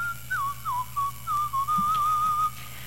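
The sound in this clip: Someone whistling a short tune: several brief phrases, each dipping slightly in pitch, then a longer sustained line. The whistle is clear and alone, with no talk.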